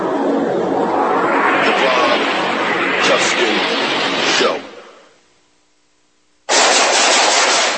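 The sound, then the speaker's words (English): Rapid automatic gunfire, a dense, loud burst of shots sustained for about four seconds before cutting off, then a short quiet gap before another loud burst starts. “Nice shooting.”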